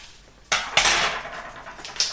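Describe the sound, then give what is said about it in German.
Spoon scraping and clinking against a bowl while ingredients are mixed after a teaspoon of Bourbon vanilla is added; a steady, busy clatter starts sharply and carries on with a few louder knocks, with no talk. “Das verreibe ich jetzt einfach mal ein bisschen. Äh, durchmische ich ein bisschen”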